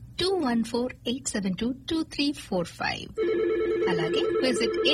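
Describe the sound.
A telephone rings with an incoming call, a steady warbling electronic tone that takes over after a stretch of talk and continues to the end.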